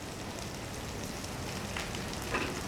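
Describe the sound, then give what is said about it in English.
Pak choi sizzling in a frying pan on a cooker, a steady, even hiss of frying that stays at a constant level throughout. “With the pak choi sizzling away in the pan, Teresa walks over to a shelf unit and takes something out of a storage jar. She then walks back over to the cooker and sprinkles the new ingredient into the pan.”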